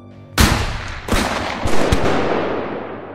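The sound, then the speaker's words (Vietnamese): Rifle gunfire from SKS (CKC) rifles as three people are shot: a few loud, sharp reports with long ringing decays, spaced unevenly over about three seconds. “Những tiếng súng CKC vang lên.”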